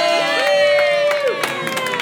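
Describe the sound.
Crowd cheering welcomes the cast, crew and creative team of an off-Broadway show at New World Stages. A long, high sustained whoop rises above the general crowd noise, which then settles into scattered shouts.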